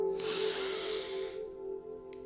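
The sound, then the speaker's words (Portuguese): A deep inhale during a breathing exercise: one long, airy hiss lasting about a second, steady in loudness, then fading out. A steady low tone continues underneath throughout. “Então, inspira mais uma vez.”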